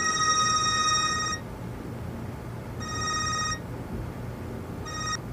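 A telephone rings after a call is dialled: three bursts of a bright, buzzy electronic ring, the first longest and the last cut short, separated by pauses over a low steady hum.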